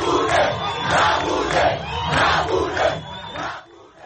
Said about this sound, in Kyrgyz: Мугабенин президенттиктен кетүүсүн талап кылган демонстрациялар бул күндөрү борбор Хараредо дагы өтүүдө.